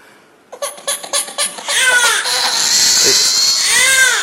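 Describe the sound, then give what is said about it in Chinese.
A hungry baby cries, starting with a run of short, rhythmic sobbing bursts that break into a loud, sustained wail lasting to the end. “这咋还哭？咋的？哭了？哭了？哦，饿了这？”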